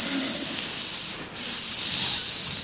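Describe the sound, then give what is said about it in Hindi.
A voice imitates a snake's hiss with a loud, steady, breathy sound held for nearly the whole clip. It drops out once briefly in the middle, then resumes at the same strength. “ऐसा उनका आवाज आता है, तो पीछे मुड़ कहते एक सांप आ रहा है।”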